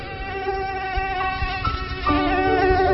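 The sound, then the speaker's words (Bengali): Mosquito whine close to the ear, the insect having flown in through an open window: a thin, steady, high buzz holding nearly constant pitch, continuous for the whole stretch with slight wavering. “হঠাৎ শুনে কানের ভেতর একটা মশা গুনগুন করছে, খোলা জানালা দিয়ে মশা ঢুকেছে ভেতরে।”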